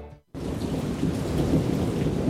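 Heavy rain pours with thunder, starting abruptly after a brief pause. It holds as a dense, loud, continuous roar with deep rumbling underneath, and no voices.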